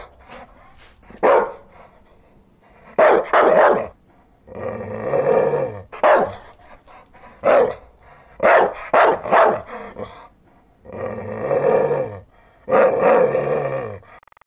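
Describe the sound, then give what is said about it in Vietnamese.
A stray dog barks and growls at night in a garden by a riverbank, with many irregular bursts of loud, harsh barks and some longer growling stretches between quiet gaps. “Ba đêm liền, nó sủa ngoài vườn nhà bà, sát bờ bãi ra sông.”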